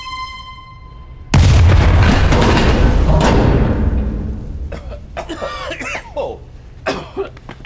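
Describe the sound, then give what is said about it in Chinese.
A low-power cotton swab bomb goes off in one sudden, loud blast, followed by a broad rumbling roar that slowly dies away over a few seconds. Scattered sharper noises follow it. “发生什么事了？那里发生爆炸了吗？”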